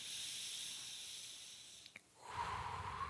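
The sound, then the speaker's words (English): Breathing in through the nose during a breathing exercise with extended exhales: a steady, soft airy hiss that turns fuller and louder near the end. “Now remember, you're extending your exhales. In through the nose,”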